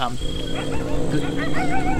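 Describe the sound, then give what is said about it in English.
Wolves surround the player in a woodland video-game scene, with whining, growling animal calls over a dense, steady background roar. “And if that wasn't bad enough, I'm apparently kinda surrounded by wolves at the moment.”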